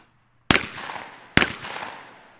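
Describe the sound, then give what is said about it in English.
Two sharp shotgun blasts at clay targets during high school skeet shooting at a conservation club, each a loud crack followed by a long, fading rumble, spaced a little under a second apart. “This is the Bellevue Conservation Club, home of the Olivet High School Clay Target Team. You may know this sport as skeet shooting, where competitors take aim at a clay disc as it flies through the air.”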